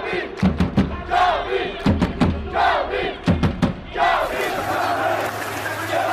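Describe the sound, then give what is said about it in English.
Loud crowd chanting and cheering inside an esports arena during a match at the Esports World Cup, with rhythmic bursts of shouting and thumping, swelling into a sustained roar near the end. “I wasn't joking when I said the noise in here was like a football match. Just listen to that atmosphere.”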